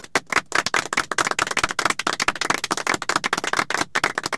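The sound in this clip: Brisk audience clapping at a quiz-style show, with many sharp, rapid claps forming a fairly loud, busy patter throughout.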